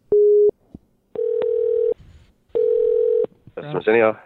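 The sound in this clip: Telephone tones sound while a call is placed: three steady, level electronic tone bursts with short gaps between them, followed by a brief voice.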